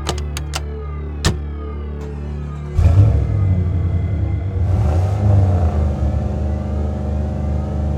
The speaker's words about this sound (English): Behind the wheel and rolling across the salt flat, Bolin gave the limo one last look. It was still sitting there, a black shimmer in the burning mist, fading rapidly from the soldier's sight as he motored on.